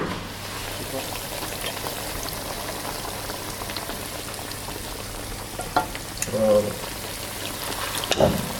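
Onions sizzle as they fry in a pan, a steady crackling hiss that runs the whole time, with a few louder bursts toward the end.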